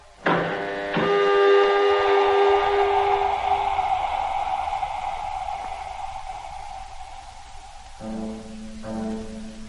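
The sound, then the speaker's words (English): A spacecraft airlock opens with a mechanical whine. A sudden onset leads into a long, loud, tonal mechanical drone that slowly fades. A second, shorter tonal hum rises near the end, with no voices. “You may let us out now. Airlock opening.”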